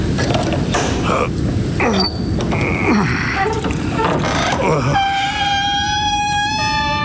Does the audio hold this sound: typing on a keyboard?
no